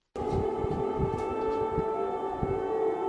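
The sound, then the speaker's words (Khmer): An air raid siren sounds during a Russian drone attack on Kyiv: a loud, steady wail held at one pitch for the whole stretch, with a low rumbling noise underneath and no talk. “ស៊ីរ៉ែនបានបន្លឺឡើងនៅពេលដែលមានការវាយប្រហារដោយដ្រូនរបស់រុស្ស៊ីលើរដ្ឋធានីអ៊ុយក្រែន”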